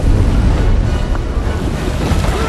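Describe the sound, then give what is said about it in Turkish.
Rushing flood water pours down from the mountains in a loud, unbroken roar of churning, hissing turbulence with no clear pauses. “Dağları aşıp gelen su, Manny ve arkadaşlarının üzerinde durduğu kayayı yıktı.”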